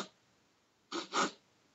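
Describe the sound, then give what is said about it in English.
A voice imitates a little sniffle with two quick, faint nasal sniffs in close succession, heard alone after a stretch of near silence. “And then the next person would come on stage and they would have a little sniffle.”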